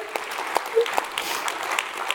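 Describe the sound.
Light audience applause with scattered sharp claps over a soft, steady wash of clapping, fairly faint overall.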